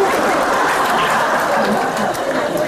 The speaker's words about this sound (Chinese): 哇，你要拍手掌。